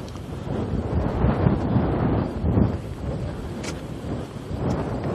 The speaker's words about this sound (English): yeah, wind blowing good right at the moment.